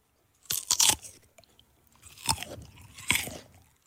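Crisp, wet crunching as someone bites into and chews a pear for ASMR, close and detailed: an early cluster of crunches, then two more separate bites with quieter chewing between, and no talk.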